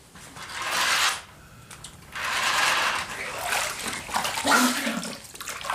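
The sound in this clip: Water splashes as someone washes, coming in bursts of broad, hissing sloshing separated by short pauses, fairly loud and without talk.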